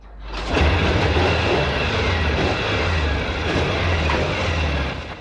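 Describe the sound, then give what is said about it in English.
A Norton motorcycle kickstarted in a workshop, its engine catching after a short pause into a steady, loud low rumble that holds for several seconds. “Kim opens the workshop door and Noddy kickstarts the Norton.”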